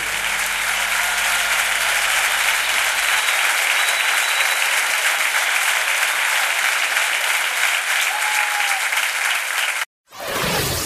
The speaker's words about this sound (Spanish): Aplaudile con fuerza al que dio su vida por vos.